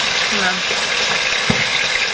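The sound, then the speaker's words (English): Dishes are being washed in a kitchen sink, with a steady, moderately loud wash of water and splashing and a single brief clink near the middle. “I'm doing the dishes right now. It's a very meditative exercise.”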